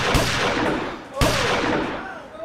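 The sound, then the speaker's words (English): Two sharp, loud gunshots fired at a baseball cap on someone's head, each a sudden blast with a short rumbling decay, about a second apart. “I'm not trying to kill him. I'm trying to shoot that stupid baseball cap off his head.”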